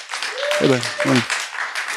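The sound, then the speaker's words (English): Applause as hosts are welcomed before an audience: a wash of clapping runs throughout, and a voice briefly calls out over it near the middle. “See how Reggie timed that? He timed it. I saw you take that applause.”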